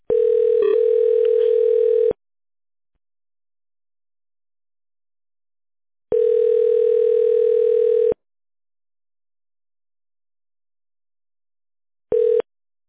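Ringback tone of a telephone call being placed to a company's line: a steady single-pitched tone sounds for about two seconds, falls silent for about four, repeats, and a third tone begins just before the end. No voices.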